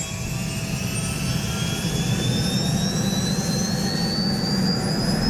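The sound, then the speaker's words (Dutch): Aircraft engine roaring in flight, heading out over the sea toward a ship after a stopover on Ameland; a loud, continuous drone with a faint, slowly rising whine above it and no voices. “En we zijn weer in de lucht. We vliegen nu vanaf de plek op Ameland waar we geland zijn richting het schip.”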